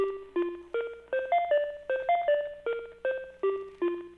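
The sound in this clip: Telephone tones play during a call transfer: a rapid run of short electronic beeps that step up and down in pitch in a repeating, tune-like pattern, steady and alone.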